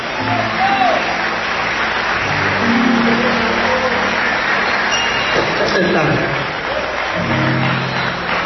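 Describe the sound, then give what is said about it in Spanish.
Loud, sustained applause rises from a church audience during an evangelist's service. The clapping is dense and continuous across the whole stretch, with voices mixed in over it. “Dale un fuerte aplauso a Cristo de la gloria.”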